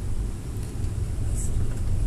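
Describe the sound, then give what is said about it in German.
Engine and road rumble inside a large bus driving near Santa Teresa, Peru, close to Machu Picchu: a continuous low drone with broad hiss and no clear breaks. “Liebe Grüße aus äh, einem Großbus aus Peru, Santa Teresa, nahe Machu Picchu.”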